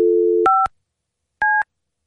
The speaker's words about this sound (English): I'm going to dial 9 for.